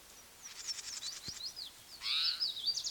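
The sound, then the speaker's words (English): Bird calls ring out as a series of short, high chirps and whistled notes, then grow louder and denser in the second half as another bird's cry joins in. “The cry is possibly by another bird.”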